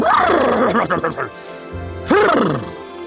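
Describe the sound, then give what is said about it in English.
A human voice imitates the neigh of Artax, a white horse, producing a wavering, whinny-like cry. After a short pause, a second loud, warbling call follows. “We also mourn the short-term death of Artax, a magnificent white horse and loyal sidekick to Atreyu. If Artax could talk, we imagine he would say such things as”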